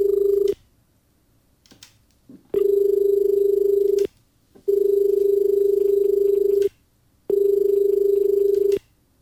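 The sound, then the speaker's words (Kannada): Steady electronic ringing of an incoming phone call: four long, loud tones of constant pitch separated by short silences, the first cut off at the start, with faint rustling in one gap. “ಮತ್ತೊಂದು ಕರೆ ಬರ್ತಾ ಇದೆ, ನೋಡೋಣ.”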